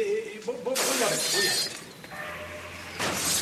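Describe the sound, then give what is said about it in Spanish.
A table is knocked over and a vase smashes, heard as several loud crashing and shattering bursts, the first and heaviest coming after a brief vocal sound, with quieter breaking noises following. “Mesa derribada, jarrón roto, nada más.”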